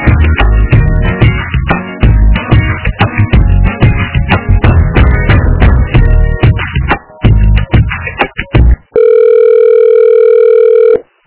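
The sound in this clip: Telephone ringback tone on an outgoing call: a single steady, unbroken tone of about two seconds near the end, preceded by dense, choppy, busy sound.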